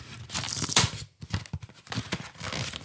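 Tearing and crinkling as a cardboard gift package is unwrapped: continuous papery rustling and ripping, broken by a short pause before more tearing resumes.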